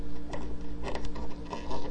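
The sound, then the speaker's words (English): Screws being tightened on a guitar capo set just behind the first fret: soft, rapid mechanical ticking and scraping in irregular bursts over a low, steady hum. “That's just behind the first fret, and I'm tightening the screws down on it.”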